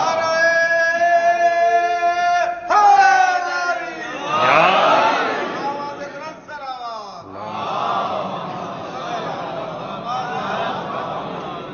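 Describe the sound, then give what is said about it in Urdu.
A crowd chants the Islamic slogans Allahu Akbar and Ya Rasool Allah in call and response: a single voice calls out, and loud, broad group shouts answer in two bursts. “نعرہ تکبیر اللہ اکبر، نعرہ رسالت یا رسول اللہ،”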